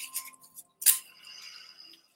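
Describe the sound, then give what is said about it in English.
Paper being ripped, a few faint rustles and then one sharp tearing burst that trails into a softer, longer tear before fading out. “With every rip, I am letting this go.”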